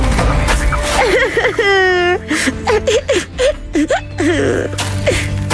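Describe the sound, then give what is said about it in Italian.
A woman cries after being dropped from her water polo team, in acted comic sobbing. Her voice whimpers and wails, its pitch wavering sharply in quivering, broken bursts with short gasping pauses. “Che succede? Perché piangi?”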